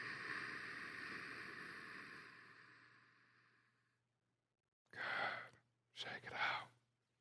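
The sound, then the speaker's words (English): Deep breathing during a guided exercise session: a long, loud breathy exhale-like rush that fades away over several seconds, then, after a silent pause, two shorter breathy breaths close together. “Let's clear out that energy. Inhale. Exhale.”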